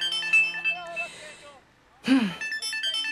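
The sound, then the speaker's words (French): A phone rings with an incoming call, a bright repeating electronic ringtone under voices talking, broken by a brief lull partway through. “Oh non! C'est Lucas qui appelle. Ne réponds pas, maman. Si, il faut que je décroche pour qu'il n'ait pas le moindre doute.”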